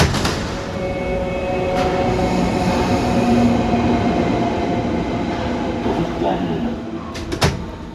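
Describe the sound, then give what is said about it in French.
Trains rumble past the entrance of Berlin's Nordbahnhof S-Bahn station, a once walled-up ghost station, with a steady rolling drone, faint wheel squeal and a few sharp clicks near the end, while people talk underneath. “Voilà, cette entrée de la gare, là où les gens entrent”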